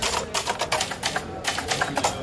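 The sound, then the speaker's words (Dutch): Typing on a typewriter: rapid, irregular mechanical key clacks in quick bursts, fairly loud and alone. “Waarom nu op de typemachine?”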